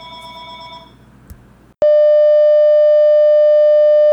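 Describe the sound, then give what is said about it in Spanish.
A loud, unbroken electronic telephone signal tone holds steady for about two seconds after a short stretch of mixed beeps and noise cuts off abruptly. “James Gunn nos está llamando. Atención. James Gunn nos está llamando. Ya, contéstale, por favor. Contéstale, contéstale.”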